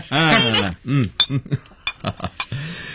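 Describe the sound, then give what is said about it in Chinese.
Glasses clink lightly in a toast made with tea instead of liquor, a few short bright taps mixed in among people talking. “那为友谊干杯总可以吧？ 这还差不多，为友谊干杯。”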